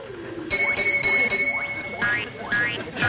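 Bright metallic chime and bell dings ring out in a rapid series, with quick rising chirps between the bursts. They are loud and heard alone, without voices.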